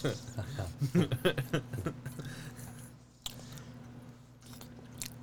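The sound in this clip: Food topped with jalapeno jelly is chewed wetly and squishily, first in a quick run of bites and then in slower, fainter chewing.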